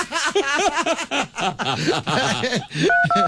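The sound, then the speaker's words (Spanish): Telephone keypad tones ring out as a phone number is dialed: a few short, steady, evenly pitched beeps near the end, after a stretch of laughter and chatter. “Uy, ya está marcando.”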